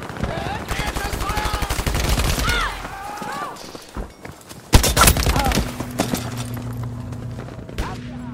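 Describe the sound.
Gunfire in the video game Battlefield V, a rapid automatic burst through the first seconds and another loud volley around the middle, with a voice talking over the shooting.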